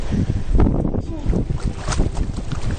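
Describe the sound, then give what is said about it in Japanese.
Strong seaside wind on Amami buffets the microphone in loud, low, rumbling gusts that continue throughout without a break. “これすごい風の音も入るんかな”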